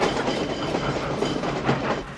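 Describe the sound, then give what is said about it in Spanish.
A train arrives inside the Auschwitz concentration camp at night: a low, continuous rumble of wagons rolling on the rails, with a clickety-clack of wheels and no voices. “Es de noche. El tren se detiene en el interior del campo de concentración de Auschwitz.”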